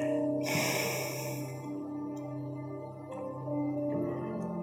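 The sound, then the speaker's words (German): A brisk exhale through the right nostril during yoga breathing, with the pelvic-floor lock released. A single airy nasal rush lasts about a second near the start, over a steady tonal drone that continues throughout. “Und dann löse Mula Bandha und atme rechts aus.”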